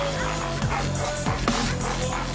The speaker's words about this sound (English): And now the dogs are whining. The dogs are crying.